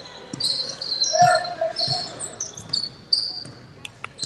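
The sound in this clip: Basketball dribbled up the court in a women's game, a few dull rhythmic bounces over a faint hum of background noise, with a sharper thump near the end.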